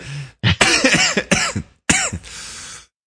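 A person coughs in a fit of several harsh, loud coughs with brief gaps after inhaling acetone fumes while cooking in a kitchen, the last cough trailing into a rasping breath.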